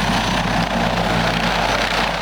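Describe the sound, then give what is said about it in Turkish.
Rotor and engine drone of a T-129 Atak attack helicopter in flight: a steady, loud, unbroken roar with a low pulsing hum, lasting the whole clip with no voices. “T-129 Atak helikopteri,”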